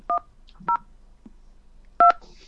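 Three touch-tone beeps sound as a hotel telephone keypad dials an extension. Each is a short two-tone chirp separated by quiet, and the last beep lasts the longest.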